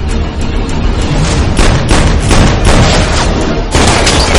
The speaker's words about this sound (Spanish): Ponytail dispara a Jerry, que cae al suelo, y Sara se esconde detrás del coche.